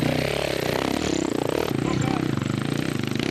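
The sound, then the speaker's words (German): A KTM motorcycle with a long swingarm and about 6 hp hydraulic front-wheel drive climbs a hill in a hill-climb competition. Its engine gives a loud, steady, buzzing drone with fast rhythmic pulsing throughout. “Dreimal stellt er seine KTM mit langer Schwinge und etwa 6 PS hydraulischem Vorderradantrieb auf dem höchsten Punkt der Strecke ab.”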